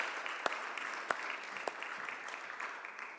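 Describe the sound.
A church audience claps as a woman returns to her seat. The applause is a steady, fairly soft patter of many hands, with a few sharper claps standing out.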